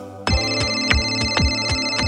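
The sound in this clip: A telephone ringtone sounds while someone waits for a customer service call: bright, tonal notes repeat in a quick, steady pattern and stay loud with no voices.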